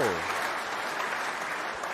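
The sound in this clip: Applause from a played live-audience sound effect during a comedy conversation: dense, steady clapping of a crowd runs throughout at an even level, with people talking over it.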